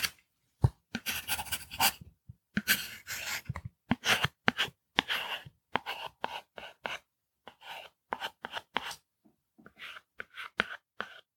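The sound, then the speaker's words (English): A pen writing a name on a card, heard as many short scratchy strokes in irregular bursts separated by brief pauses. No one speaks. “So I'll take this card and fill out Mrs. Brussels.”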